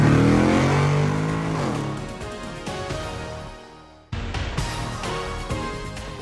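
A car engine revs and accelerates as it pulls away in first gear. The loud roar briefly cuts out partway through, as at a gear change, then resumes with rising intensity.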